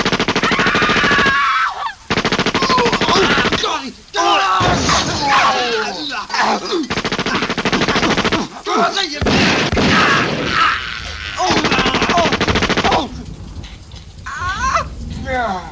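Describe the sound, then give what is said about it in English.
Loud automatic gunfire as everyone is shot, a dense, sustained rattle of rapid shots with only brief gaps between bursts. “You shot everyone!”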